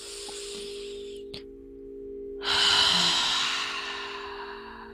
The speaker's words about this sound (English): And exhale, maybe flutter your lips. Take one more stabilizing breath for good measure.